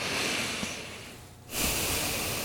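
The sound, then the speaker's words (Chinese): Deep breathing during a stretching and relaxation exercise: a long, soft, airy breath that fades into a short pause before another breath begins. The breaths are faint and hissy, with no talk. “3次深呼吸。”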